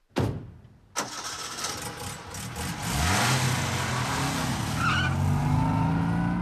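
A motor car starts up and drives off: a sharp burst, then the engine catches and runs loudly and steadily, its pitch climbing as the car pulls away.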